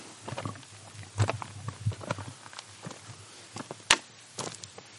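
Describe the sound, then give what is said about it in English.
Footsteps climbing over stones: many uneven, irregular steps with crunching and scraping contacts, varying in loudness, plus a sharp click near the end. “Now we're going to climb some stones.”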